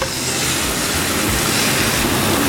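Beaten egg sizzles as it is poured into a hot, tilted pan, giving a loud, dense, steady hiss with fine crackle that runs unbroken through the whole clip.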